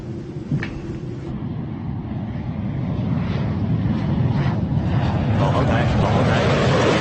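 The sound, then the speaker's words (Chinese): Airplane in flight, a special aircraft half an hour from landing at Baghdad airport for a refueling stop. Its engines make a steady, broad drone that swells slightly louder toward the end. “我们将在半小时之后降落在巴格达机场加油，做短暂停靠。”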